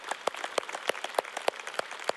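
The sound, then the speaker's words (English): A church audience applauding, a quick run of sharp, irregular claps, fairly faint and with no voices over it, stopping short. “Can we just applaud the Lord for that?”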